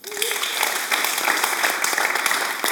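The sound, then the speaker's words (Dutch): Audience applause welcoming four guests at the start of an evening discussion show: a dense, steady roar of clapping that holds at an even loudness throughout without a pause. “Mag ik een applaus voor mijn gasten vanavond?”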